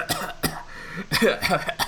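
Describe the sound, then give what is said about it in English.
A person imitates a dragon's smoky cough: a couple of short, rasping coughs, a pause, then a longer, rougher run of hacking, throaty coughs. “the dragon, like, kind of rears up, brings back teeth, and then it lets out like a smoky cough”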